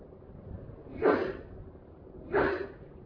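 Two brief, breathy sneezes about a second apart, each a sharp burst of noise that rises out of a quiet, steady low hum.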